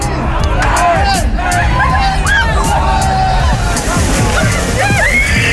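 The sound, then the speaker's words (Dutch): Loud, continuous sloshing and splashing as people slide down a dike and wade through a muddy ditch, with crowd chatter and shouting throughout. “Maar nu kon iedereen weer los en dat betekende van het dijk glijden, door de sloot ploeteren en modder op plekken waar je dat liever misschien wel niet hebt.”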